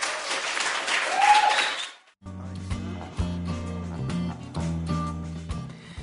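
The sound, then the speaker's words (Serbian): Audience applause at the end of a poetry evening: a dense wash of clapping that swells, then fades away over about two seconds and gives way to music with steady tones and a low, pulsing bass. “Molim vas jedan aplauz.”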